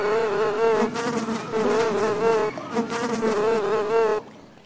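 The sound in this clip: Flies buzzing in a loud, steady drone that wavers slightly in pitch. It runs in two long stretches with a brief dip between them, then cuts off abruptly near the end.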